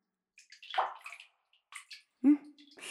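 Hot bath water splashing in a filled bathtub: a few brief, irregular sloshes and drips with quiet gaps between them, ending in a sharper plunk into the water.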